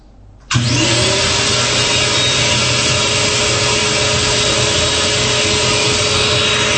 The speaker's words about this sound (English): So if you cut off the suction, it does have a valve, an emergency valve, that'll open up to a little bit of air in there to cool the motor. But anyway, here we go. Hose is in. So let's fire it up.